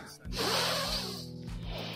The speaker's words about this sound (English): Taking a deep breath with me